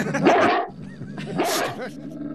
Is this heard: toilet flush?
no